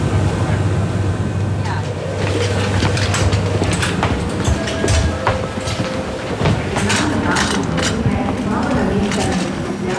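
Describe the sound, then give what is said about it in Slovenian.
A train pulls into the main railway station in Ljubljana, a steady loud rumble threaded with rattling clicks and a low hum early on. “na glavno železniško postajo v Ljubljani smo prispeli ob 7 in 15 minut, torej 4 minutami zamude.”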